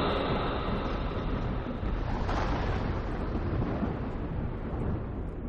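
Thunder rolling as a continuous, loud, deep roar with no distinct separate claps, holding steady throughout.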